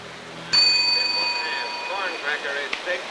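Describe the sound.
A reception desk bell in a hotel lobby is struck once by a bus passenger. It gives a single bright metallic ding that rings on and slowly fades over the following seconds.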